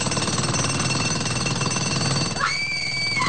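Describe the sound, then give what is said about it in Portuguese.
A jackhammer breaking material, pounding in a fast, relentless stream of loud, even impacts. The hammering carries on throughout, with a thin high whine appearing near the end. “Britadeira! Britadeira! Quebra! Quebra! Quebra! Mais, mais, mais, mais, mais!”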